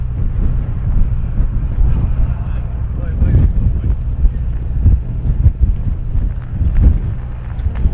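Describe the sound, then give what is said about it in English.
Low, steady engine rumble of a ferry under way, with gusty wind buffeting the microphone throughout; loud and continuous, with no distinct separate events. “now we're going to record the sounds of the ferry.”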